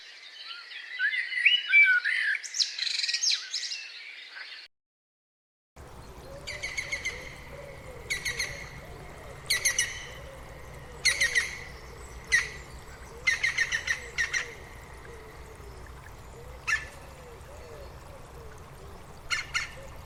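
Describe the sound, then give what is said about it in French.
Common blackbird song: an opening burst of chattering, a short silence, then repeated fluting phrases, each ending in a high twitter and separated by pauses. “Le merle noir.”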